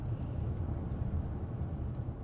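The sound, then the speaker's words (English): Steady, dense rumble of a car driving onto Louisiana 66, a state highway, heard from inside with the driver and a passenger; the low engine and road drone holds constant throughout. “The car pulls on to Louisiana 66, the state highway that leads to Angola. Hunley's driving, Pearson's in the passenger seat.”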